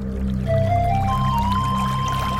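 Water pouring steadily into a container, a continuous trickling gurgle whose resonant tone steps upward in pitch as it flows.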